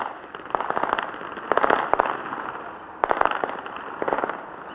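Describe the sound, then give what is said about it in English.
Automatic weapons fire from street clashes in Sadr City comes in several bursts of rapid sharp cracks, separated by short pauses, over a steady background hiss. “And as you can hear, steady bursts of automatic weapons fire.”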